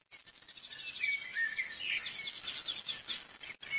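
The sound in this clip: Jay chicks calling in a forest while waiting to be fed, a faint, steady stream of thin, high-pitched chirps and cheeps.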